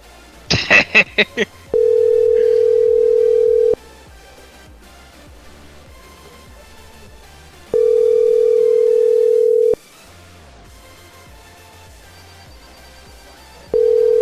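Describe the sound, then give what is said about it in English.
Telephone tones from a ringing phone line: a quick flurry of beeps, then a steady, loud, low tone sounding in roughly two-second bursts separated by longer silences, repeating three times. “I wish someone to answer that phone in the background.”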